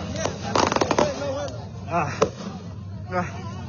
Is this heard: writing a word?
no